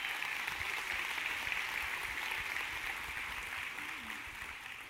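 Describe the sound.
A church audience applauds to welcome a nervous first-time speaker, with soft, continuous clapping that gradually thins and fades.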